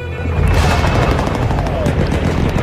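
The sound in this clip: Gunfire and the din of enemy weapons form a dense, unbroken roar with crackling bursts, loud and steady for the whole stretch.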